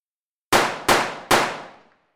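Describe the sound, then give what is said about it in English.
Three sharp pistol shots ring out in a radio drama in quick succession, each a loud crack with a ringing tail that fades before the next. The last tail trails off longest, and no voices are heard. “All right then, I shall shoot!”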